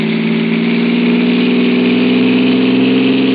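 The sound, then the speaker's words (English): A car engine runs loud and steady as the driver steps on the gas. It is a dense, continuous drone that keeps nearly the same pitch throughout. “I stepped on the gas like a shot.”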